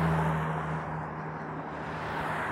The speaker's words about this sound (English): a lot of cars on this road.